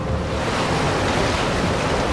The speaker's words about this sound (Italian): Si alzò un fortissimo vento e in un attimo il mare fu in tempesta.